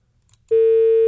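A telephone busy tone sounds after a call-in line disconnects. It is a loud, steady single-pitched tone that starts abruptly after a faint moment and holds unbroken to the end.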